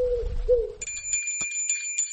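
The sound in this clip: A small bell tied to a pigeon's leg rings with a bright, steady high tinkle and a few light pulses, after a brief low cooing note at the start.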